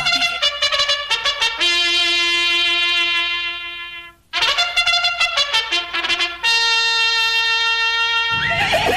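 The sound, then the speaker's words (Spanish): Mares neighing before the last horse race of the year: loud, long, tonal whinnies with shaky onsets, a few calls in a row, with a brief break near the middle. “Atención, chiquillos. Estos son las yeguas que van a participar. Las yeguas que van a participar en la última carrera de este año.”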